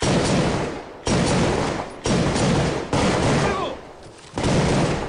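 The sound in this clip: Volleys of gunfire from several guns at a firing range during police training, heard as five dense, harsh bursts that each start abruptly and sag slightly before the next one cuts in.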